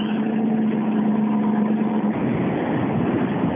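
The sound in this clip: Engine of a Mitsubishi Mirage rally car in R5 specification driving, a steady, dense mid-range drone with a sustained tone that drops away about two thirds of the way through as the roar continues.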